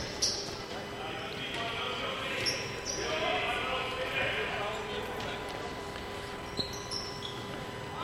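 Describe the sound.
A basketball is dribbled on the court during a game, soft bounces barely rising above a steady wash of crowd noise and voices, with one sharper thump near the end.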